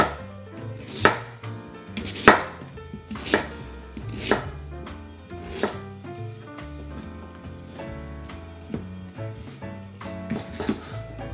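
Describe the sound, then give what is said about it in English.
A knife chops yams into bite-sized pieces on a cutting board, giving many sharp, evenly spaced knocks of the blade hitting the board in a steady rhythm. “And then let's just slice it into bite-sized pieces.”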